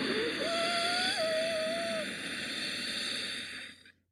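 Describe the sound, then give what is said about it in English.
Slow breathing in through the nose with the back of the throat gently contracted gives a steady, airy rush lasting about four seconds, with a faint whistling tone riding on top before it fades out. “Inhale through the nose while gently contracting the back of your throat.”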